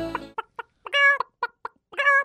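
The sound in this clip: A chicken clucks in a quick run of short, sharp clucks, broken by two longer, drawn-out squawking calls, loud and clear with no voices.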